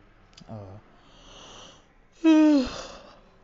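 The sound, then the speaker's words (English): A yawn: soft breathy sounds lead into a loud, brief voiced yawn whose tone slides downward before trailing off into quiet breath. “yawn of the day”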